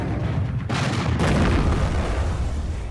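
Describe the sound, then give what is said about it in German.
Bullets and shells fly from a German trench in a 1914 battle, making a loud, continuous low rumble of gunfire and booms with a couple of sharper bursts early on. “Kugeln und Granaten hören nicht auf, aus dem deutschen Graben zu fliegen.”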